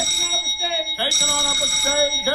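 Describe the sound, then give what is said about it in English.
Studio bell signal sounding on a film set before a take: a loud, steady, metallic electric ringing that holds throughout with a brief change partway through. “Are we up to speed? Right. Four bells.”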